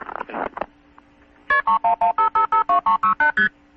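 Bell System–style multi-frequency telephone tones dial a number with key pulse and start signals, a rapid, evenly spaced string of short, clear two-tone beeps at a steady rhythm, preceded by a brief noisy burst.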